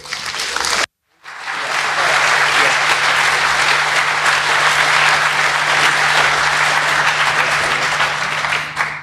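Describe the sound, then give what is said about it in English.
Audience applause as the conference badge team comes on stage: a brief burst of clapping, a moment of silence, then loud, sustained, dense clapping from a large crowd that stays steady to the end. “I'd like to welcome them to the stage. So please put your hands together for them.”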